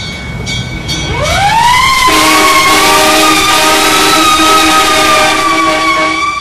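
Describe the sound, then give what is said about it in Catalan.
Ambulance siren: a loud, harmonic wailing tone that rises in pitch, then holds steady and continues strongly to the end. “Se sentia soroll d'ambulància.”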